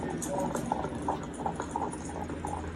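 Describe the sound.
Hooves of a horse pulling a carriage wagon clip-clop in a steady rhythm, moderately loud over a continuous rolling rumble of the ride.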